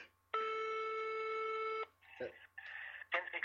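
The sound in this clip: A telephone dialing out to place a call: a long steady tone lasting about a second and a half, followed by a few short beeps and tone bursts, faint throughout.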